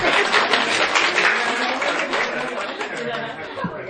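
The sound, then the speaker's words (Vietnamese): Audience applause at a Buddhist sermon, a brisk burst of many hands clapping, blended with lively crowd chatter, that loosens and thins slightly toward the end. “Vỗ tay.”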